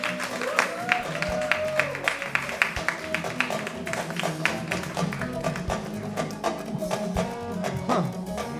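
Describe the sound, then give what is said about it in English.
Senegalese pop plays as walk-up music on stage at a live show in Minnesota, with a steady rhythmic beat of sharp percussive hits under melodic lines at moderate volume. “What is this music? Yeah, tell us about this walk-up music, gentlemen. What? Pop music.”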